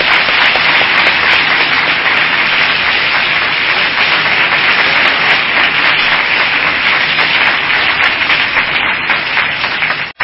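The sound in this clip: Audience welcoming a speaker at a gathering in Atlanta breaks into dense, continuous applause. The clapping stays steady and loud throughout and cuts off abruptly at the end.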